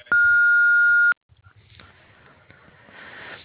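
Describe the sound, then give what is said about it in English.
An answering machine beep: one loud, steady, unwavering tone lasting about a second, followed by faint low-level noise. “If you would like to leave a message, please do so after the beep.”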